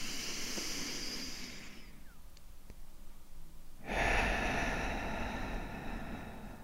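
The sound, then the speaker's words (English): A long exhale through the mouth during a guided breathing exercise: a soft, steady breathy hiss swells in after a quieter pause and holds to the end. “And exhale through the mouth. Once again.”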